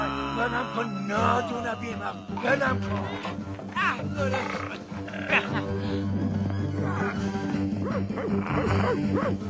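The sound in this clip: A dog barking in an animated cartoon scene, with repeated barks and yips over loud, busy music and overlapping voices that continue throughout.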